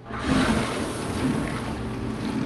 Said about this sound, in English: My dishwasher here, which is a little bit on its last legs, is made by GE.